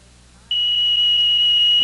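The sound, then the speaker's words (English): Smoke alarm set off by cigarette smoke: after a brief quiet moment, a piercing high-pitched tone switches on abruptly and holds steady and loud to the end. “Hey, what was that all about? Oh, the smoke alarm. Those cigarettes you're puffing on set it off.”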